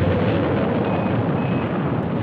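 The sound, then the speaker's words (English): Rocket main engines igniting at launch, a loud, dense, continuous roar that holds steady throughout, with no voices. “We've gone for main engine start. We have main engine start.”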